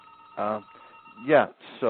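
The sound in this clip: A mobile phone rings in a room during a discussion. A few short bursts of a tonal electronic ringtone are separated by quiet gaps.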